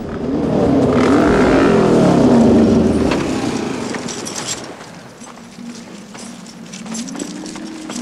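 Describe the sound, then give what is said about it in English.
Motorbikes approach a railway bridge, their engines a loud, steady rumble that eases slightly midway, then swells again with a rising engine tone near the end. “The bikes approach a railway bridge, with their headlights glowing in the distance.”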